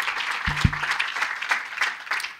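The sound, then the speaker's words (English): An audience applauds to welcome a speaker introducing a film at a screening. The clapping is brisk and sustained, with a couple of dull low thumps early on. “So I'd like you to welcome José Manuel.”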